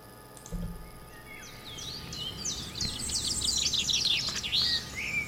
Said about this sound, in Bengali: দেখতে দেখতে পূর্ব দিকে সকালের আলো ফুটে উঠল, গাছে গাছে পাখি ডেকে উঠল।